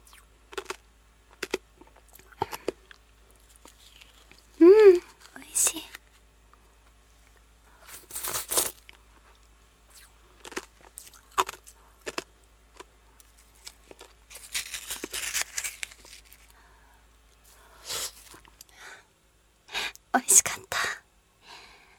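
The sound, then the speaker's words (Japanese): Crunchy bites and chewing of Sacre lemon shaved ice come in scattered, irregular bursts of crisp crackling, with soft whispering between them. “今食べたのは、サクレレモン、サクサク、かき氷でした。”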